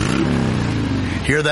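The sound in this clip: A motorcycle engine revs with a steady, throaty drone that climbs in pitch near the end, as a voice speaks briefly over it.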